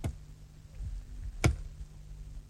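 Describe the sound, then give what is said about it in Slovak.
Wood being chopped: two sharp, dry axe strikes about a second and a half apart, each a brief crack with a low thud, over a faint steady background. “Ako by niekto drevo rúbal.”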